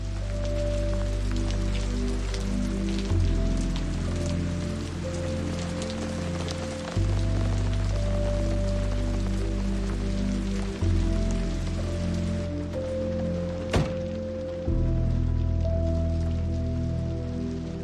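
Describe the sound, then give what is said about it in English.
Rain pelts down outside a house, a dense, continuous hiss of drops striking surfaces that stays loud and steady throughout with no let-up. “Rain continuing to pelt down”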